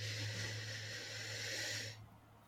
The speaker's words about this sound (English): So take a nice big deep breath in and out. Take a deep breath in